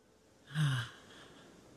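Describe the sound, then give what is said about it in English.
A single soft, deep breath, brief and faint, rising and fading within about half a second against near silence. “Thought I'd take a deep breath. Many of you are welcome to breathe along with me.”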